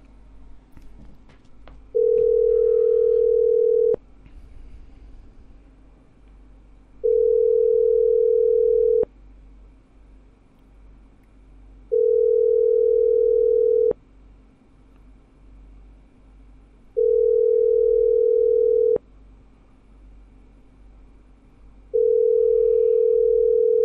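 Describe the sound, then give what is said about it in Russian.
A telephone ringback tone sounds while a number is being called: five long, steady, mid-pitched tones evenly spaced by pauses, the last cut off, over a constant low hum. “Да, Ирке-дырке надо. Ребят, звоним Ирке-дырке.”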